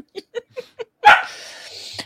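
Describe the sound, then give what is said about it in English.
A puppy barks in four quick, high yips, then lets out a louder, longer, noisy burst that trails off. “Yeah, that is not feedback. That is puppy.”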